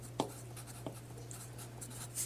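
A pen scratches on paper during a meeting in faint, brief strokes, a few short scrapes spread over a steady low hum.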